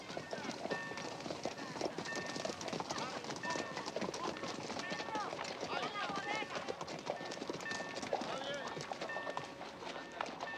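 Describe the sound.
Hooves clip-clop steadily as a group of riders enters the Mexican town of Fronteras in Sonora. Many quick, uneven hoofbeats run throughout, with indistinct voices underneath.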